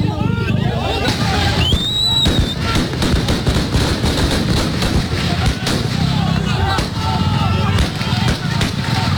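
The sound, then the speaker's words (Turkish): Gunfire at a crowd of civilians during a coup attempt: many sharp bangs crackle over dense, continuous crowd noise and shouting, loud throughout. “Şu anda halka ateş ediliyor.”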